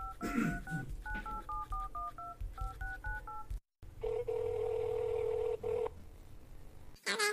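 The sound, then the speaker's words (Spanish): Telephone keypad tones as someone dials out to make a call: a quick, uneven series of paired beeps, then, after a brief break, a long steady tone that holds for about two seconds. “Paren todo momento, tengo que hacer una llamada.”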